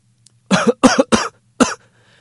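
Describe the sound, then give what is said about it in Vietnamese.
A violent, dry coughing fit from a man: four harsh, loud hacking coughs, three in quick succession and a fourth after a short pause, followed by quiet. “Bỗng nhiên một tràng tiếng ho khan vang lên dữ dội.”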